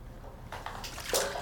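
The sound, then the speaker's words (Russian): Soft splashing of a hand dipped into water: faint sloshing and trickling with a few small splashes, quiet and alone without talk. “Она опускает руку в воду.”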